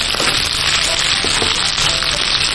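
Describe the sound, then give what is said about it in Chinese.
Chicken pan-frying until golden, flipped to sear the other side: a dense, continuous sizzling hiss with scattered faint crackles, loud and unbroken from start to finish. “好，这边煎好了以后咱们给它翻个个儿。翻个面以后再进行另外一面煎制。”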